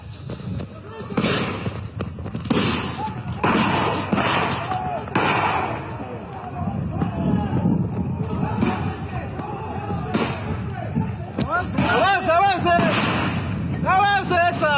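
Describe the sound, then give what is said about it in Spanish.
Chaotic street clash as police fire tear gas and rubber bullets at protesters blocking a highway, with repeated sharp bangs and bursts over continuous loud crowd noise, shouting voices and agitated yelling throughout. “Esas voces son de la policía, que están disparando gases lacrimógenos, balines de goma.”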